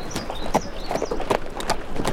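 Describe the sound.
Horse hooves clip-clopping as a rider sets off, a few crisp, evenly spaced hoof strikes over a constant background hiss, with no voices.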